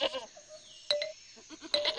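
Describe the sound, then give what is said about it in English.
A goat bleats a few times in short, nasal, wavering calls, fairly faint, with small gaps between them. “It's a goat. Goat starts with G.”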